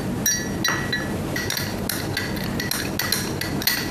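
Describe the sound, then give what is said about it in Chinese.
A spoon stirs a drink in a glass of water, making many quick, bright clinks against the glass in a steady, busy rhythm that continues throughout. “然后你把它搅拌一下。”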